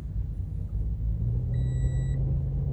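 Low, steady engine rumble of a car about to set off, a quiet continuous drone with a faint high tone sounding for a moment partway through.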